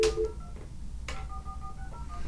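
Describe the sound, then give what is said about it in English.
A shortwave time-signal broadcast played faintly from a phone, with sharp ticks about a second apart and steady, thin beeping tones between them over a low background hiss. “Gonna have some WWV in the background from my phone. You can hear it howling in the background.”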